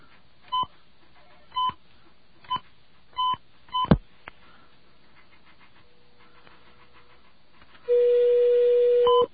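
Telephone keypad buttons pressed to dial a radio call-in line: five short dual-tone beeps at uneven intervals, then after a pause a longer steady tone, with no talk.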